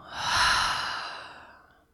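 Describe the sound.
A single long breath pushed out through the open mouth during a relaxation exercise, a soft airy whoosh that swells quickly and then fades gradually to near silence.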